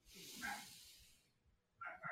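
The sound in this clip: A dog barks in a few short, sharp bursts: one early, then a quick pair after a quiet pause, with soft breathy hiss between them.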